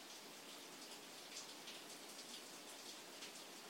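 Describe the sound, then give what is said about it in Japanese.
Morning rain falls in Kyoto as a soft, steady patter. The hiss of drops stays faint and even throughout, with no voices. “今京都の朝は雨が降っていて、雨の音が聞こえる。”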